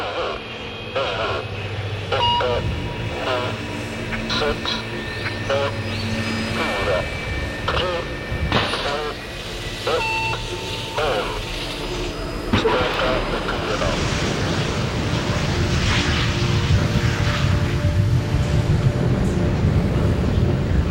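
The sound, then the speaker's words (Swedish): A rocket launching and lifting off: a broad roaring rumble that swells and stays loud through the second half, after an earlier stretch of scattered beeping tones and clicks. “Raketen lyfter från marken och försvinner upp mot himlen.”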